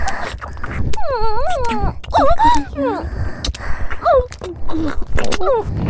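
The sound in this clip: A dog whines in several high, wavering moans that swoop up and down in pitch, broken by short clicks and snuffles.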